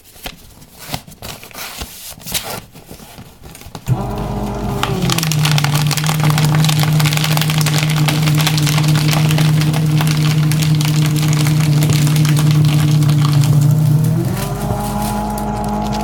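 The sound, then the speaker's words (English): A paper shredder shreds items: after a few light handling clicks, its motor starts into a loud, steady droning whine, and near the end the pitch steps up higher as the load finishes. “Now I'm going to run a couple things through the shredder.”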